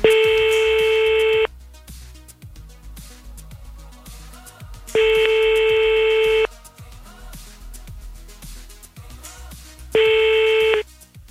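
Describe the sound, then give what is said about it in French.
A telephone call rings out as a steady electronic tone, repeated three times, each lasting about a second and a half, over a rhythmic beat-driven music bed. “Je vous appelle maintenant en direct”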